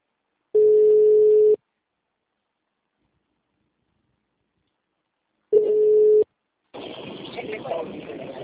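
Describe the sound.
Telephone ringback tone while a call is being placed: two steady, even-pitched tones about a second long, separated by a long silence, followed by a stretch of rough line noise.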